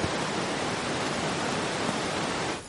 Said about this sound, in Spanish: El animal corre por un sendero paralelo a un río.